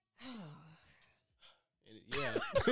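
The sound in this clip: A loud, forceful exhale through the nose, drawn out for nearly a second. After a short pause, voices start talking and laughing.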